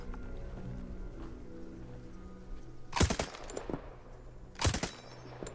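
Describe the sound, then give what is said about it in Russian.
An automatic rifle is test-fired from a trench position: two short bursts of rapid, sharp cracks, the first at about three seconds and the second near the end, with quiet between them. “Сейкенс отстрелял и отдает автомат Казакову.”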